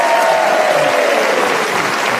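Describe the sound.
Studio audience applause welcomes four panelists at a panel game show recorded at the Corn Exchange, a loud, dense wash of clapping that holds steady throughout and stands alone.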